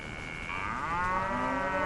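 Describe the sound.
A grazing cow in Salalah gives one long, drawn-out moo. It starts about a quarter of the way in and holds steady, with a low, rich tone over constant background noise.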